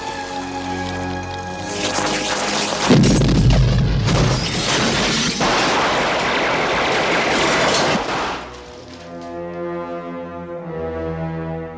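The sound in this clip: Gunfire from a volley crackles and booms in a dense, sustained burst lasting several seconds over steady music, with a heavy low thud near the start. The music then continues alone.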